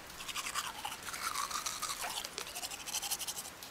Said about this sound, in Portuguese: E quando você se sente satisfeita depois de você ter se arrumado, você começa a escovar os dentes.